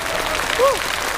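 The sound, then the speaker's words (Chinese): A brief burst of audience applause at a live music show, a steady patter of clapping lasting just over a second with a short voiced call rising above it midway. “再次掌声感谢”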